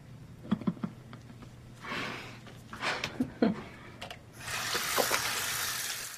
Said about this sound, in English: rinses her hands off in the sink. She now picks up the razor and runs it under the tap.